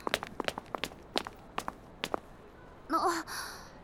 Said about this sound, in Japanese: 急に走り出してどうしたの？